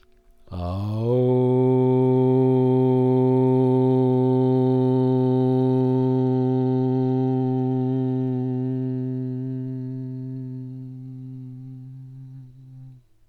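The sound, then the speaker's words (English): A meditation closes with a chanted Om: a deep, steady, harmonic vocal drone that holds for about twelve seconds before tapering off at the end. “And now let's seal this meditation by chanting Om together. Take a deep breath in.”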